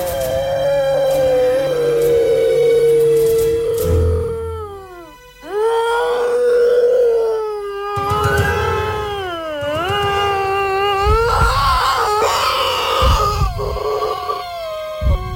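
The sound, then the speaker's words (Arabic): A child sitting and crying, a loud, drawn-out wailing that rises and falls in pitch with howl-like sobs across about fifteen seconds, with no speech. “شفت نفس الطفل قاعد وبيعيط تاني،”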